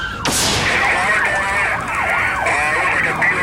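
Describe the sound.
A police siren wails during a car pursuit of a suspect. After a sharp sweeping burst at the start, a loud, cycling tone rises and falls in repeated sweeps.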